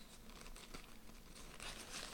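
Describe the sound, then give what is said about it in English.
Crinkling and tearing as a package holding a t-shirt is ripped open, a quiet, continuous rustle of many small crackles with no talk. “I have a uh, a t-shirt, and let's just rip it open.”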